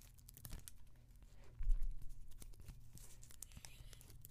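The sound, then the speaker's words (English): Soft crinkling and tearing of a Band-Aid wrapper being opened in an ASMR style, with a fuller crackling burst partway through among quieter rustles. “It's just the Band-Aid, but like ASMR version.”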